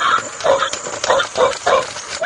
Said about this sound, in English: he has a little clock with the dog standing there. And when you set the clock, the alarm on the clock, it sounds like this.